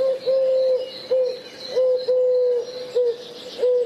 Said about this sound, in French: Et cette fois-ci, c'est le chant de la tourterelle.